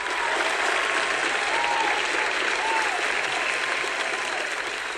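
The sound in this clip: An audience applauds to welcome a comedian guest onto a show, giving loud, dense, unbroken clapping that stays steady for the whole stretch.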